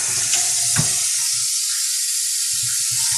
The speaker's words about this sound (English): I'm putting the lid back on, and I've got oily hands now, so let's wash those off.